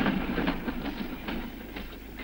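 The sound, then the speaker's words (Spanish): A passing train near a bridge, trailing smoke, gives a steady loud rumble with a rhythmic clickety-clack of wheels running throughout, and no voices. “Pasa el tren inundándoles con el humo.”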